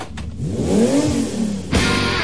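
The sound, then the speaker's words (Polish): Under hard acceleration, the diesel engine of a new Mini One Diesel car rumbles loudly and deeply, its low drone rising in pitch as the revs climb. “Jeśli ktoś się postara, usłyszy też przyjemny, burczący dźwięk silnika, a postarać się można ostro przyspieszając.”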